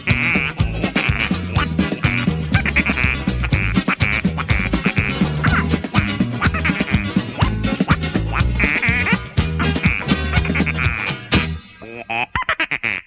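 Loud, nasal duck quacks and honks repeat many times over a thumping pop music track. A sparser, quieter stretch comes near the end.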